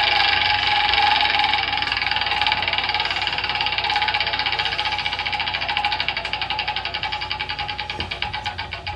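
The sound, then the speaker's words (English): A prize wheel being spun gives a steady, dense run of rapid clicking ticks that keeps going for the whole stretch. The ticks are fairly loud and heard without talk over them. “Spin that wheel. I'm spinning it.”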